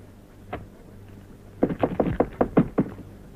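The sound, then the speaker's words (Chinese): Knocking on a door before entering, in a staged opera scene: one knock, a pause, then a quick series of several sharp knocks. “我跟你说过多少次了，进来以前先要敲门。”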